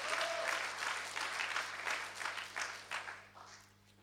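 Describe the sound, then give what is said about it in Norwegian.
A church audience applauds with steady, dense clapping that tapers off toward the end over a faint low hum. “Gi Jesus en skikkelig applaus I formiddag.”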